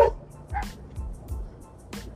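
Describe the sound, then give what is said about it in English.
Dogs bark in several short, fairly faint yips and woofs, spread unevenly across the moment with quiet gaps between them. “And there go the dogs again.”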